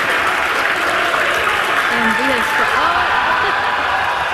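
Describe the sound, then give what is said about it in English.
Mission control staff clap and cheer after a Starship landing, a loud, continuous wash of applause with excited voices calling out over it. “mission control burst into cheers.”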